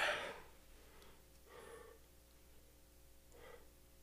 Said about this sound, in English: Three deep breaths, go.